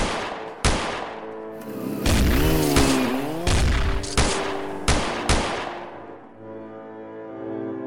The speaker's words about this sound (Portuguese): Dois delinquentes daqui do Denilmo deram dois disparos de 12.